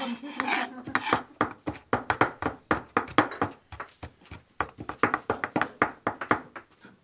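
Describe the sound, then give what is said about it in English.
Knife chopping food on a board in a kitchen: many sharp, crisp knocks in a brisk, fairly steady rhythm, each clipped and bright, heard alone with no talk. “So we're going to chop in order to do this.”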